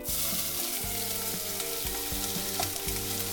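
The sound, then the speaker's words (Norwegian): Chopped onion, about a whole onion's worth, sizzling as it fries in a pan, with a dense, loud, continuous hiss that stays steady throughout without any talk. “nå bruker vi en hel kepaløk, da. Og det er ganske mye. Jeg ser den blir blank og fin.”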